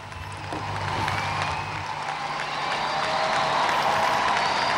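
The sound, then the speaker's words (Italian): Applause from a large crowd fills a university hall as a speaker enters, a dense, continuous clatter of clapping that stays loud throughout. “Come sentite, accolto da un grande applauso.”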